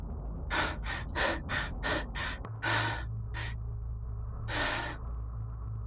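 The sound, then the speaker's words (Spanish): Sharp intakes of breath, first a quick run of short gasping breaths, then a few longer, deeper ones, with a low steady hum underneath. “Vemos cómo coges aire.”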